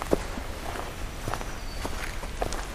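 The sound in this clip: Faint footsteps of someone out hiking in the afternoon, a steady series of soft, crunching footfalls at an even walking pace, with no talk.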